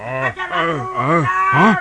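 A water buffalo lows in four deep, arched moos in quick succession, each rising then falling in pitch, loud and alone.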